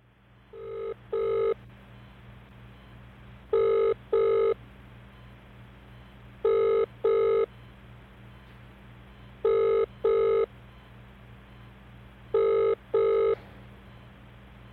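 A telephone rings for an incoming call with five evenly spaced double rings. Each pair of bright, buzzing tones is separated by a pause, and a faint steady hum runs underneath.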